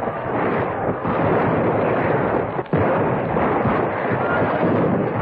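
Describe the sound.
Rifle gunfire in a battle as a sound effect: a dense, continuous roar of crackling and rumbling blasts with no clear separate shots, staying loud throughout except for one brief dip partway through.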